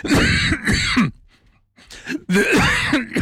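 Someone coughs and clears their throat after inhaling something, with a few harsh rasping bursts, a short quiet gap, then more throat clearing.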